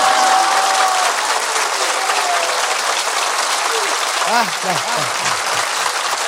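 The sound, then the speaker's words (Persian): Dense, loud audience applause with everyone clapping at a religious celebration on the night of Imam Ali's birth, a continuous roar of hands with voices chanting over it near the end. “پس همه کف زدن، دست ها سرخ شده یا که حنا بندان است.”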